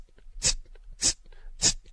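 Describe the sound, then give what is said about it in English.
A voice imitates fuel injectors spraying at idle with three sharp, hissing bursts, evenly spaced about half a second apart and heard alone. “If you want to go fast, the injectors are going to sound like this. Psst, psst, psst. At idle, it sounds like this.”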